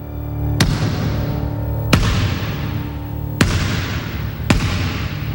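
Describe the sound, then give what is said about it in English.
A basketball bounces on a court four times, each bounce a sharp, loud thud about a second or more apart, over a steady low background hum. “claps along to the bouncing of the ball.”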